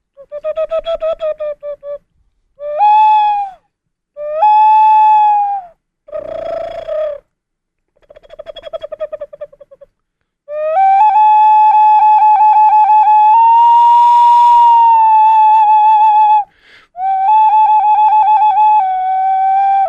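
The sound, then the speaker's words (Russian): An Italian clay ocarina shaped like a duckling and painted gold is played in short phrases of pure, hooting, whistle-like tones separated by brief pauses, followed by longer sustained notes. “Это у меня окарина. Причем настоящая окарина, итальянская. Окарина переводится с итальянского как утенок.”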